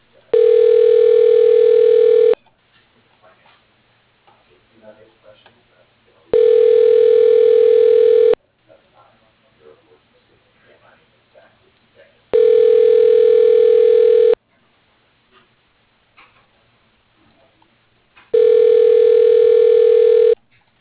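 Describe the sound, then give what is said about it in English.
A telephone rings back four times while a call is transferred. Each steady electronic tone lasts about two seconds, with roughly four-second pauses between them. “Please hold while your call is being transferred to Alice Houston.”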